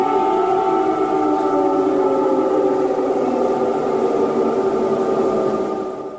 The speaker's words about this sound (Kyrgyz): Дагы бир көңүл бурчу жагдай бул аба чабуулу тууралуу эскерткен сиреналардын добушу.